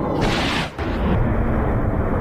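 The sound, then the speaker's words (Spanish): Airstrike bombing explosions on terrorists in Nigeria come through as a dense, loud roar that dips briefly and then surges again. “Este es el momento del ataque contra los terroristas a los que atribuye Washington las matanzas contra cristianos.”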